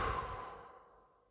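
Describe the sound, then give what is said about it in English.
A deep breath released out through the mouth during a calming breathing exercise: one soft, airy sighing exhale that slowly fades away, with no talk. “take a deep breath through the nose, into the nose, and out through the mouth.”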